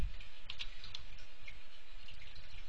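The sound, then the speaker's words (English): Typing on a computer keyboard: a few quick, light key clicks at irregular intervals over a steady background hiss. “And this one we're going to call message, or type in message. And this one we're going to type in email.”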